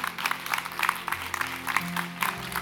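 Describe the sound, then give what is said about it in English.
Congregation applause during a church service, bursts of clapping pulsing in a steady rhythm over sustained low musical tones. “Let's give God a big round of applause.”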